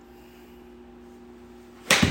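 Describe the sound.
A golf club strikes the ball on a sliced shot during a golf tournament: one sharp, loud crack arrives near the end after a quiet stretch of faint, steady hum.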